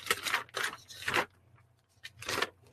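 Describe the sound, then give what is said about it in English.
Paper rustling and crinkling in a few short bursts, faint, over a low steady hum. “Sorry about the paper noise, guys.”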